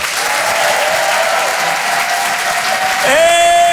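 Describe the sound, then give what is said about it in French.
Comedy club audience at the Apollo Théâtre in Paris applauding, a loud, steady wash of clapping that holds evenly throughout. “Faites un maximum de bruit, s'il vous plaît, pour Nick Mukoko.”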